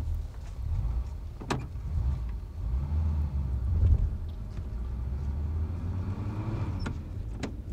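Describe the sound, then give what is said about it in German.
A car drives along with a quiet, steady low rumble of engine and road noise, broken by a few sharp faint clicks. “Also, Sie steigen aber bitte hinten ein. Wir fahren noch am Café Wien vorbei”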